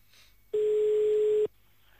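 A telephone tone sounds while a call is placed back: a single steady mid-pitched beep lasting about a second, set between stretches of near silence.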